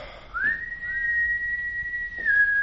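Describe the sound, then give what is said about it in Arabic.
A long sustained whistle, as if from people out in the street, glides briefly upward at the start and then holds one steady, clear pitch to the end, fairly loud with no talking. “وعلى بعد قريب منا أكثر مما هو بعيد أسمع صفير كالناس الشوارع.”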